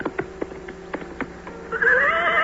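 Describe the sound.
A horse gallops with several quick, uneven hoofbeats, then lets out a loud, high whinny that wavers and holds to the end.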